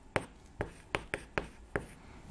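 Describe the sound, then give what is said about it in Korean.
Hand-drawing a diagram of the universe's size over time: six short, scratchy pen strokes at an uneven rhythm, crisp and fairly quiet with no talking. “자, 추정되는 우주의 나이, 이거는 옆에다 그림으로 한번 그려볼게요.”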